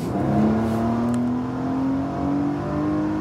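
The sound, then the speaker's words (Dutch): Porsche Panamera 4 E-Hybrid, a second-generation model, driving with a smooth, steady engine hum and a thin whine that climbs slowly and evenly in pitch throughout. “Porsche, Panamera. En om precies zijn de 4 SE Hybrid.”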